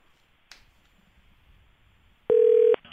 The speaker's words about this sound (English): Well, let's get him on the phone again. Let's try again. David Ely, the downstairs desk editor, huge Panthers fan. Of course, the phone might not work again,